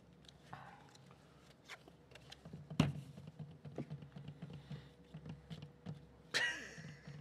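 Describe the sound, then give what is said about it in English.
Playing cards being handled and shuffled during a card game: soft, scattered clicks and taps, mostly faint, with a sharper snap in the middle and a brief louder burst near the end. “Waiting for the shuffling.”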